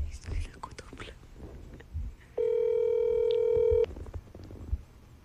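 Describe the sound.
Telephone call tone as a call is rejected: one steady electronic beep lasting about a second and a half, with whispered and spoken voices before and after it.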